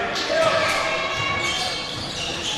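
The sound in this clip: Basketball dribbled on a court during a game, several thumping bounces heard under ongoing play-by-play commentary.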